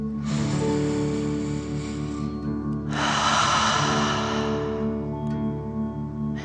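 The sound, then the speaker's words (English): Deep breaths drawn in and blown out during a guided breathing exercise, two long airy breaths heard over a steady, sustained musical drone. “Deep breath filling up your chest and belly, in and out.”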